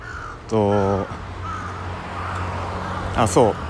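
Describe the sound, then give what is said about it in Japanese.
Crow cawing in loud, harsh calls: one drawn-out caw early on and a short cluster of caws near the end, standing out over a steady background noise. “もう一個カラスが元気に鳴いてますね。”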